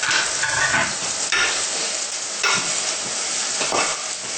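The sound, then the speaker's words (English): Textured soy protein sizzles steadily as it fries in a pan, with a few scraping stirring strokes cutting through the continuous crackle; no voices. “And stir it well. And let it be there for a while. You have to stir it occasionally, huh? Until they're golden.”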